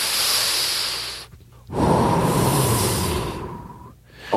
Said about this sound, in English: Hey, I'm going to take a deep breath.